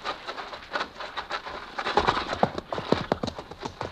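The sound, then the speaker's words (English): A ridden horse approaches with clip-clopping hooves in an uneven rhythm. The hoofbeats grow louder and denser in the second half, with light rustling between steps. “Look, a horseman.”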